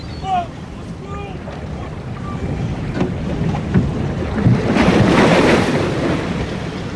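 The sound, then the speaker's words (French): Strong ocean waves heave at sea with wind, a dense rushing roar that swells louder and brighter in the second half before easing slightly. “Les vagues sont trop fortes!”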